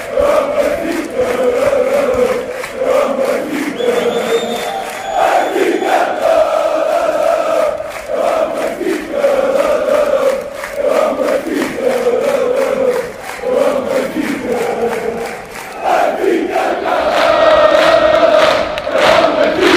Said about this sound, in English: That was the sound of Benfica supporters at Anfield, at historic Anfield.